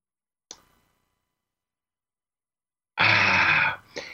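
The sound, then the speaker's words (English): Throat clearing from a tickle in the throat: a faint short click, then a loud, harsh, rasping clear that lasts nearly a second, followed by a brief extra burst. “I was tickling in my throat.”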